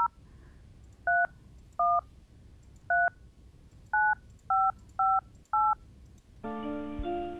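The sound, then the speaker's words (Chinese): Touch-tone keypad beeps as a phone number is dialed to call back a line that would not connect: eight short, evenly loud dual-tone beeps at an uneven pace, followed by a longer, richer tone. “因为真的是打不通，我们就回拨也是不通”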